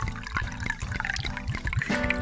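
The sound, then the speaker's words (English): Hazy IPA beer poured from a container into an IPA glass, heard alone as a steady liquid pour with many low, rhythmic glugs and gurgles throughout. “I'm pouring it into a real IPA glass.”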